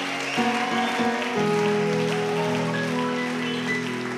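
A church audience acclaims and applauds during worship, with scattered clapping and crowd sound over sustained, steady musical tones.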